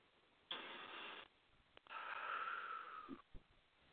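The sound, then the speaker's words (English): A person breathes in through the nose and out through the mouth. A short, airy breath comes first, then a pause, then a longer breathy breath with a slight whistling edge. Both are faint and heard alone. “Just take another breath in through your nose and out through your mouth, please.”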